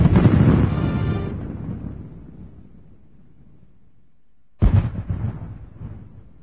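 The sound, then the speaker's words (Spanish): Two heavy explosions at an airport during a hostage rescue operation: a booming blast with a long rumbling decay that fades to near silence, then a second sharp detonation with its own rolling tail. “Los periodistas presentes escuchan detonaciones a la llegada de los helicópteros. Después, 2 explosiones más.”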